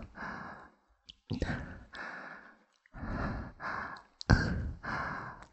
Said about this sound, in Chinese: 呼吸变得这么重